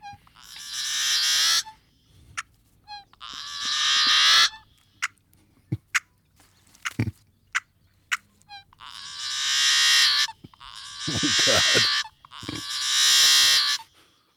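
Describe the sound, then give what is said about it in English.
A yellow-headed blackbird gives its call: several long, harsh, buzzy rasps like a rusty gate, separated by short clicky notes. “this yellow-headed blackbird has an ugly sound that I'm going to make you listen to. I saw on some birding site that it sounds like a rusty gate opening.”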